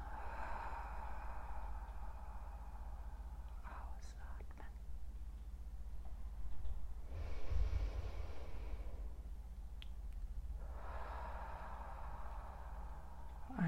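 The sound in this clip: Slow, deep breathing during a guided relaxation exercise: a soft, airy breath swells and fades near the middle, with fainter breathy sounds around it over a steady low hum.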